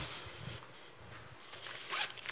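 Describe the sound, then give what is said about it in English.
Zipper being zipped up, a few quick rasping pulls of the slider, faint and alone. “I'm always zipping things up. I don't know what's wrong with me.”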